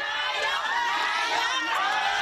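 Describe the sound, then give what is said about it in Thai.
Crowd of Thai people cheering and shouting a welcome inside a Thai Buddhist temple in Queens, New York, a continuous mass of raised voices and whoops that holds loud and steady throughout. “เสียงร้องต้อนรับและการเรียกว่านายกที่ดังขึ้นภายในวัดพุทธไทยถาวรวนารามในย่านควีนส์คือกำลังใจที่ชาวไทยในนิวยอร์กมอบให้”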